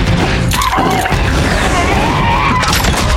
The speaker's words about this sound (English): Hansel uses a combination of hand grenades and rifle fire to take down the numerous targets